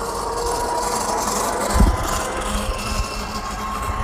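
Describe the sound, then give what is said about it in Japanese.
An old hotel cart drives through a park, making a continuous low engine rumble with rattling vibration and a brief louder thud partway through. “今ですね公園の中にあるホテルが入り口との行き来をするカートが走っていてこのカートが結構古いので結構な音がしてましたね”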